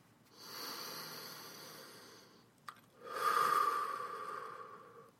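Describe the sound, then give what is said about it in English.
A slow, deep breath drawn in through the nose and blown out through the mouth: a long, soft hiss of inhalation, a brief click, then a longer, louder, airy exhale. “In through the nose and out through the mouth. Go ahead and do that. I'll wait for you. Let's do one more together.”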